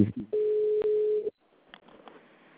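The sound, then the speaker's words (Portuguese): A single steady ringback tone sounds on a phone call to a bank branch, holding at one pitch for about a second, then cutting off to faint, quiet line noise. “Tô ligando, mas eles não atendem na gente.”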